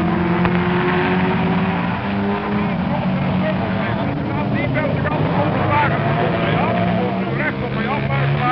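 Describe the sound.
Racing cars roar past on both sides during a race, a continuous, loud engine drone that swells and fades under steady talking.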